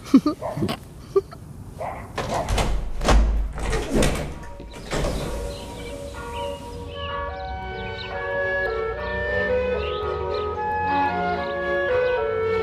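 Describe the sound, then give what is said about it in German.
A door is opened partway, with a few sharp clicks followed by a longer scraping, sliding rumble, after which steady, faint tonal sounds continue. “Ich habe die Tür etwas aufgemacht.”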